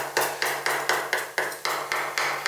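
A kitchen knife chops hard and fast on a cutting board during cooking, a steady run of many evenly spaced sharp knocks at a quick, even rhythm.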